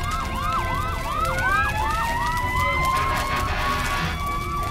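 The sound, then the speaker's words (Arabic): Fire engine siren as the truck arrives at a fire, a loud, continuous yelp of rapidly repeating rising and falling sweeps throughout. “بعد عدة دقائق وصلت سيارة الإطفاء”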